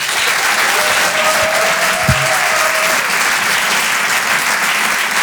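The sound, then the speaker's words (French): A theatre audience at a comedy show in Paris breaks into loud, dense applause that continues steadily for the whole clip without pausing. “Je vous demande de faire un maximum de bruit, s'il vous plaît, pour Paco Pérez.”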